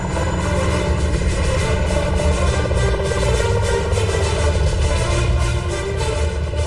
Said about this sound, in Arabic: فجأة سمعت صوت قوي لمروحية عم تقرب